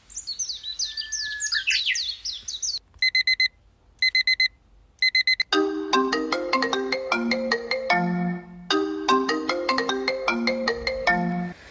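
An alarm clock rings: a brief burst of chirping birdsong gives way to three groups of high electronic beeps, followed by a loud, repeating electronic melody that carries on to the end.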